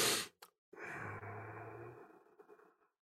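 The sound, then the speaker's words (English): A breathing exercise: one short, noisy inhale, a brief pause, then a long, slow exhale that fades out over about two seconds. No voices. “You can inhale to a breath of about 2, and then you're going to exhale to a breath of about 10 to 12.”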